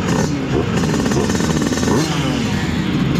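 A Simson S51 two-stroke moped engine runs with a loud, steady, rattling buzz that carries through the whole clip with no break, its tone bright and rhythmically chattering.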